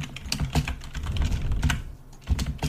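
Typing on a computer keyboard: quick, irregular keystrokes with dull thumps, a short pause near the end, then a few more keys.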